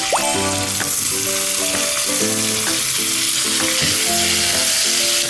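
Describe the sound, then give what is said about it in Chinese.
Stir-frying sizzles steadily in a wok as bamboo shoots cook with small chili peppers and minced garlic. The hiss stays loud and continuous throughout, with faint tonal music underneath and no talking. “我们把小米辣跟蒜末倒进去，炒到这个蒜香味出来的时候，我们就把竹笋倒进去，”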